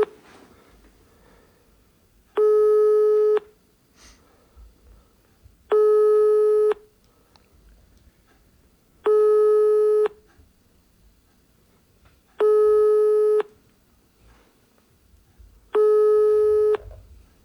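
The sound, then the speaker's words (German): Telephone busy tone after a call is hung up: five identical, steady-pitched beeps, each just under a second long, separated by long, even gaps of near silence. “Nee, ist aufgelegt. Automatisch aufgelegt, okay, alles klar.”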